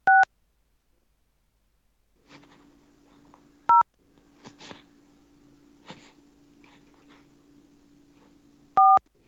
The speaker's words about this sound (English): Were they just dialing?